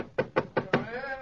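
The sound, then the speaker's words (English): Four sharp knocks on a study door, evenly spaced and moderately loud, followed by a faint voice. “Let's tap on his study door.”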